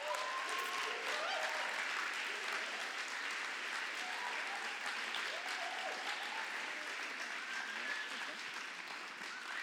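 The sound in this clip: An audience applauds to welcome a speaker to the front: steady, dense clapping that holds at an even, loud level for the whole stretch, without a clear break.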